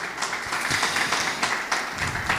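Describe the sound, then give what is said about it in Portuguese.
Applause from a church audience during a worship service: many hands clap together in a dense, steady patter for a couple of seconds at moderate loudness, with no speech over it. “Aplauda o Senhor Jesus mais uma vez.”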